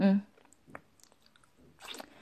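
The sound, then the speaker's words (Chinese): Chewing while eating breakfast: after a brief voice sound at the start come a few faint, soft, crunchy bites and moist mouth noises, quiet and scattered. “我还在吃早餐”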